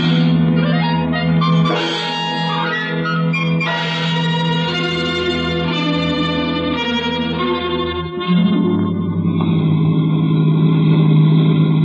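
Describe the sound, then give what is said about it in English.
Car engine revving as the car is driven fast, a loud, sustained roar with many shifting tones and a noticeable change in tone about two-thirds through, with no voices. “For a woman who just fainted, she's driving plenty fast.”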